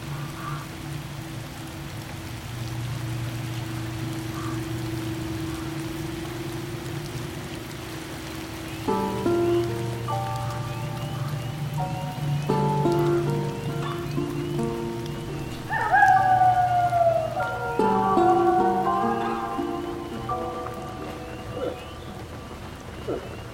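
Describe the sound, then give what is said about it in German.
Steady rain falls with a constant soft hiss that runs unbroken through the whole clip. Brief tonal notes join in during the second half. “Guck mal, es regnet. Jetzt regnet es.”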